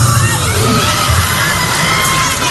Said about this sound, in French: Et vous l'entendez, tout le monde a donné de la voix pour ce concert, même le public, même les animateurs.